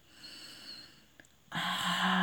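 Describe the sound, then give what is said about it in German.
A deep inhale through the nose during a guided breathing exercise: after a quiet, faintly hissing stretch, a soft rush of air starts abruptly and holds steady to the end. “Ausatmen, Lunge reinigen. Ein über die Nase,”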